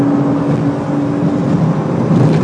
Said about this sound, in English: Listen to the engine.